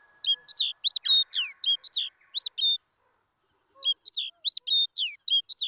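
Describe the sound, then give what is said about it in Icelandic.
Song of a songbird whose song is inherited and genetically fixed: two phrases of rapid, high, sharp chirped notes sung alone, separated by a clear pause, with each phrase a string of many short notes at a steady pace. “Byrjum á fuglunum sem hafa erft sinn söng í gegnum DNA-mengi sitt.”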